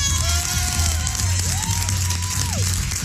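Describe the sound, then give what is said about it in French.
A crowd cheers and whoops loudly to welcome a performer, a continuous roar with gliding whistle-like shouts that rise and fall above it. “Acclamez le roi de la radio, Arthur.”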